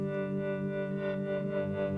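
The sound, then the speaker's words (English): A single guitar chord, frozen, sustained and processed with effects into a drone: a steady, unbroken wash of layered tones that holds the same pitch throughout, with a soft shimmering texture. “what you're hearing right now is just one chord that I played on the guitar that was captured, frozen, and sustained, and then that went through some other processing. So there's sort of a drone, just one sound that was originally from the guitar,”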